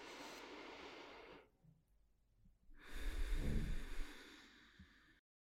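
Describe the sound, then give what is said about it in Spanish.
Slow, deep breathing during a guided meditation: two long, airy breaths separated by a short pause, the second louder and longer, with no talking. “Respira conmigo.”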